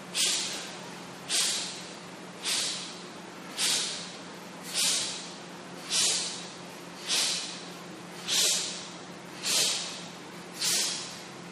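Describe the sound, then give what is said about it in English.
Ten forceful, sharp exhales through the nose in a rhythmic breathing exercise, each a hissing puff snapped out at an even pace about once a second, with softer breath between them. “Halfway in. Exhaling to snap the belly in.”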